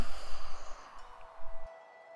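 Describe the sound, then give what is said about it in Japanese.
Deep, slow breathing during a guided breathing exercise, with a couple of soft, airy breath sounds and a low rumble, then quiet near the end. “じゃあ、深呼吸をしましょうか。大きく息を吸って、”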